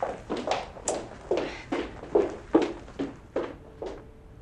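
Footsteps of a person walking away, a long, steady series of soft, evenly spaced thuds with no talk over them.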